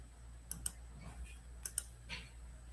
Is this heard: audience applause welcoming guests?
no